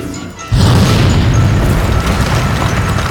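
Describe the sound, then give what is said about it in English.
An explosion set off by a fired laser beam in a sci-fi scene bursts in with a sudden loud boom after a quieter lead-in, then rolls on as a heavy, sustained roaring rumble. “He's going to hit that button. It must be the laser beam firing button. Stop, or we'll fire. Too late.”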